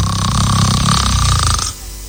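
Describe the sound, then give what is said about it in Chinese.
Snoring from a drunk man whose head has just hit the pillow: one long, loud, rasping snore with a throaty rattle, heard alone, cutting off abruptly near the end. “打上呼噜了”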